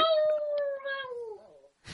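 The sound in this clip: A dog howls in one long, drawn-out tonal wail whose pitch slowly falls, then fades out, followed by a brief soft noise.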